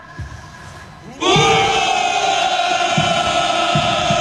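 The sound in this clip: Special forces paratroopers of the Bulgarian army roar a shouted greeting at the 6 May Day of Valour parade. After a quiet start, a sudden loud massed shout bursts in and holds as a sustained chorus to the end.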